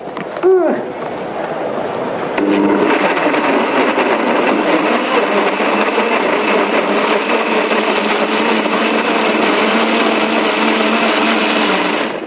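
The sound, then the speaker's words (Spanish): A kitchen food processor motor starts after a brief voice and runs at a constant high whine, loud and unbroken to the end. “Si no tienen una, un robot de cocina así tan profesional y tal, la maravillosa Mini Primer.”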